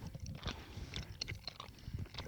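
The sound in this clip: Soft, sticky chewing of a mochi ball with a chewy rice-dough filling, with faint muffled bites and small clicks repeating unevenly throughout, quiet and with no talking.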